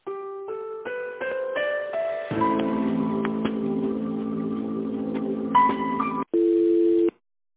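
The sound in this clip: Telephone line tones play while a call is being transferred. A run of stepped electronic tones leads into a denser, sustained hold passage, which ends on a short, steady tone. No one speaks.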